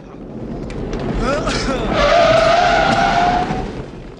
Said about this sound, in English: The second hits the van's back wheel, flipping it and sending it sliding on its side.